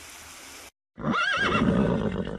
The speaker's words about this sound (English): On the shore, horses walk at a steady pace.